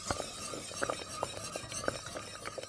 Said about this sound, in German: Und jetzt muss alles zusammen nochmal aufkochen. Weiter rühren, nicht vergessen.